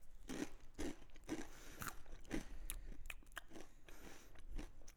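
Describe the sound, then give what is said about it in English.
Biting and chewing food during a taste test, with soft, steady crunches repeating at an even pace throughout. The chewing is faint, and no one talks. “I'm tasting the first one.”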